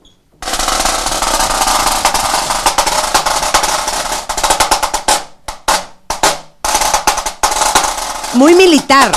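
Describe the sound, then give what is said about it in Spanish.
High-tension Kevlar snare drum played in a long, dense, rapid roll of crisp, rattling strokes, followed by shorter bursts and separate accented hits, ending with a loud flourish. “Que este es un snare drum. Snare drum de alta tensión. Esto que ven aquí es Kevlar. A ver, entonces enséñanos cómo suena.”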